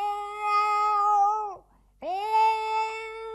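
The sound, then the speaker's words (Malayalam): A pregnant cat meows twice, each a long, clear, tonal cry with rich harmonics, separated by a short silent pause and heard alone without talk. “ദേ നോക്കി, കുടിയിൽ ആരോ ഒളിച്ചിരിക്കുന്നു. വണ്ടി ഇതാ, ഇവിടുത്തെ ഒരു പൂച്ചയാ.”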